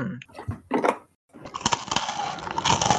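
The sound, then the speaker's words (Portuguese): Crunching of a crisp rosquinha ring biscuit being bitten and eaten: a few sharp, crackly bites, a brief pause, then a dense, continuous run of crunchy chewing. “Sintam a crocância da minha rosquinha.”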